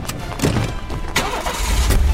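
A car engine starts as a getaway car is fired up. A few sharp thuds and cranking bursts give way to a steady low engine rumble that builds and holds to the end.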